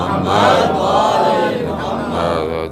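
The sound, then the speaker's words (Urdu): A crowd at a religious majlis chants salawat in unison in answer to a call, a loud, sustained mass of voices that carries through the whole stretch with little break. “آواز بلند، نعرہ صلوات.”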